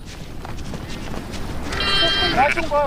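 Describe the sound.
A lamb that had straggled from its flock during a disturbance bleats after a herder finds it. Wavering, high, quavering calls come near the end over a steady background hiss and rumble.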